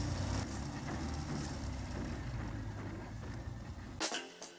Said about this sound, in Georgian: ჩემს მანქანას კაიპანი ქვია. ეს ჩეხური სპორტული ავტომობილების იშვიათი მარკაა. კაიპანი როდსტერია.